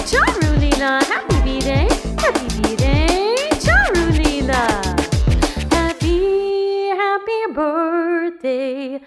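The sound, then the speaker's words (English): Dog howls and yelps in a birthday song: many rapid, rising and falling whining glides in quick succession, then a few longer wavering howl-like tones near the end. “My dog says, ah woo!”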